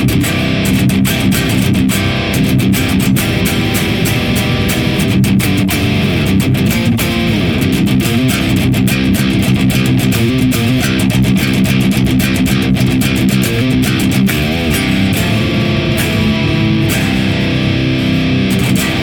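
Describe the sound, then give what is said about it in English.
Heavily distorted guitar through Drone Gazer and Electro Harmonix Big Muff Pi Op Amp pedals, an Ubershow 75 amp and a Mesa oversized cabinet, blended with Neural DSP Archetype Gojira: a loud, dense, unbroken fuzzy roar. “the Drone Gazer through the Ubershow 75 on the left and the Big Muff Pi Op Amp from Electro Harmonix going into a Mesa oversized cabinet.”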